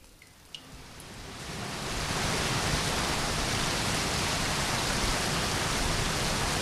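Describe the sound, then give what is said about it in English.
Washing machine wastewater scooped with a jug and poured through a filter: a few faint taps, then a loud, steady rushing splash builds and holds to the end. “And then I'm scooping it up in a jug and pouring it through this filter.”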